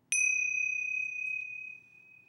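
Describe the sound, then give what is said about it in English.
A meditation bell struck once gives a clear, bright, pure ding that rings on as a long sustained tone, slowly fading with a faint wavering pulse. “Well, that sound is a sound for meditation and for mindfulness.”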